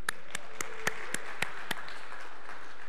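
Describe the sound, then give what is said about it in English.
A few slow, evenly spaced claps in a church, applauding the people who gave the announcements. The claps are faint and thin and trail off after a couple of seconds. “Hey, great job on the announcements. Really good job. And yeah, let's hear it for our announcement people.”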